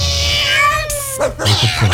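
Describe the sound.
A kitten up for adoption meows once in a long, clear, tonal cry, followed by shorter noisy sounds and brief rustling.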